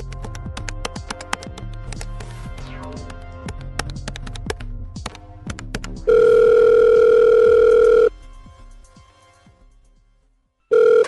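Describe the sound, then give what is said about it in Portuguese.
Phone ringback tone heard while placing a call: a burst of many quick clicks and taps, then one long steady low tone lasting about two seconds, a quiet pause, and the start of a second tone at the end. “Deixa eu ligar pra ele aqui. Vamos ligar pra ele.”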